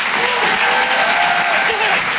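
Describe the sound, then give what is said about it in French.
Loud, continuous applause from an audience at the Apollo Théâtre during a live comedy and song show, with a few voices calling out above the steady clapping. “Faites du bruit l'Apollo.”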